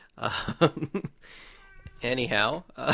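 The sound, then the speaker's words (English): A pet cat meows once in the middle of a conversation, a short, thin, high-pitched cry between stretches of people talking. “apologies for the background noise. That would be our cat”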